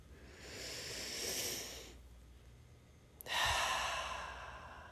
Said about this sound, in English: So I breathe through my nose, right into my belly. And then I just let it go.